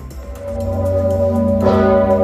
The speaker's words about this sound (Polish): Wawelski dzwon dał sygnał do rozpoczęcia obchodów 105. rocznicy odzyskania przez Polskę niepodległości.